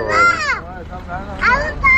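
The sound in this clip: A young girl plays in the alleys of an industrial estate, her high voice rising in short, lively bursts of chatter and calls with a brief lull between them.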